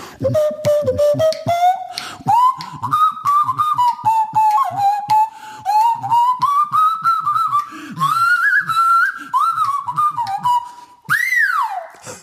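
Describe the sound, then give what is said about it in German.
Whistled tone shaped by the inside of the mouth, wavering and sliding in pitch over a steady rhythmic pulsing, with brief gaps and a final upward swoop that drops away near the end. “wo man dann wie durch Geisterhand, wie beim normalen Pfeifen auch mit dem Mundinnenraum einen Ton moduliert. Das Ganze klingt dann zum Beispiel so.”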